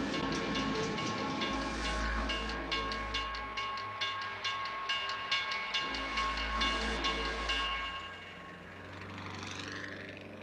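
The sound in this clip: A train rolls past a railroad crossing with three tracks: a loud, steady rumble and rattling with rhythmic wheel clacks and sustained high tonal whines. The noise stays heavy, then thins out near the end as the train passes.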